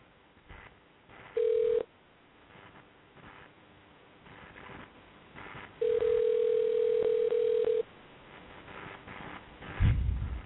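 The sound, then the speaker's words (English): A telephone sounds while a number is dialled: two steady electronic tones, a short one and then a longer held one, over a faint, murky background. “We'll hit these numbers and we'll hit enter and we'll dial.”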